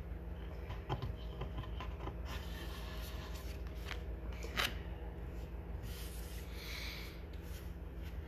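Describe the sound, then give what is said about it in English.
Tarot cards are handled and turned over for a five-card reading, giving faint soft rubbing and sliding sounds with a couple of brief scrapes over a quiet, steady low hum. “Alright, so I got my 5 cards to be turned over.”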